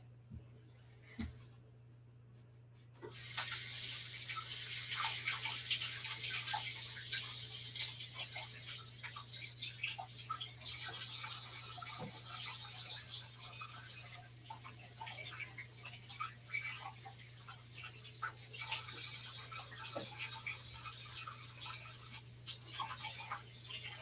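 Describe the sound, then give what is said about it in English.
Running tap water rinses coconut oil off hands during root vegetable hash cooking: after a few seconds of low steady hum, a broad hissing rush starts and continues to the end, with small splashes and clicks in it. “All right, I need to go wash all of this oil off of my hands now.”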